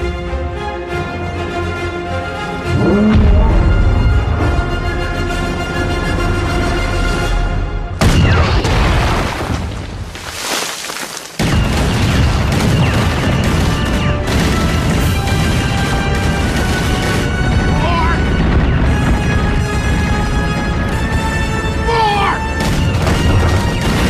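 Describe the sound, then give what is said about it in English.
Heavy gunfire aimed at a man: loud, continuous booming and crashing blasts fill the whole clip, with several sharp surges of impact standing out against a sustained tonal backdrop. “I want every gun we have to fire on that man. Do it.”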